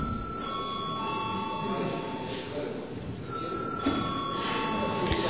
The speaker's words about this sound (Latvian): Un lūdzu zvanu.